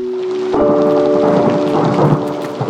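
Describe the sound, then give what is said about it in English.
Thunder and rain during a lightning strike: steady rain hisses, then a loud thunder crash breaks in about half a second in and rolls on under the downpour. “bam, you're hit with lightning.”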